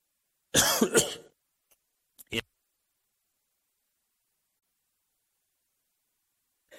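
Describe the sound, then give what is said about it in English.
A single loud, harsh cough, followed after a pause by one short, quieter burst, with silence before and after. “I turned it on and coughed and turned it off and tried to talk backwards.”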